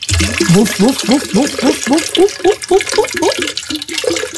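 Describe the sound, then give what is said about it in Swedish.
Schnapps glugging as it is poured into a jug: a rapid, regular run of many hollow gurgles, each rising slightly in pitch, with a throaty, almost barking quality. “Ja, nu häller jag ut det här brännvinet i en kanna.”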